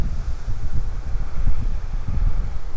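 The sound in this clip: Wind blowing outdoors along a beaver path beside a dammed creek, a steady low rumbling buffet with gusty swells throughout and no voices.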